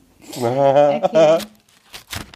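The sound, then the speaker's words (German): Paper tears and crinkles as a small envelope is opened, a few short scratchy rips coming right after a voice speaks. “Es ist noch der kleine Umschlag, nur eine Kleinigkeit”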